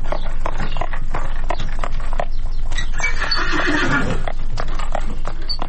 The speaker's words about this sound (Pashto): د اروپا د زړو ښارونو په تنګو کوڅو کې د آس د نالونو ټک ټک سړی پخوانیو وختونو ته بیایي